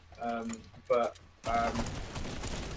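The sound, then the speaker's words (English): Guards fire at the player in a video game, a sustained crackling burst of rapid gunfire that follows a short stretch of talk and runs to the end. “Getting shot at by guards. That's what I've been doing.”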